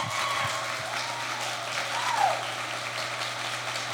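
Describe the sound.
Audience applause for a guest at a live show in San Francisco: faint, steady clapping sustained throughout, with a brief swell near the middle.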